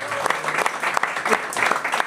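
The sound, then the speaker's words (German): Enthusiastic applause for a family being honoured, a continuous wash of many hands clapping at a steady, fairly loud level throughout with no breaks. “Mal großen Applaus für die Familie.”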